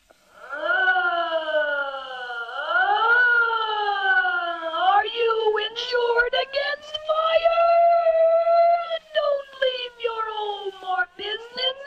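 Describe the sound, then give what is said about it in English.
A fire engine siren in a fire insurance radio commercial, opening with two rising wails, then holding a wavering tone that breaks into choppy, speech-like pulses. “the sound of a siren on a fire engine might be used to identify the fire insurance, and the commercial would sound something like this.”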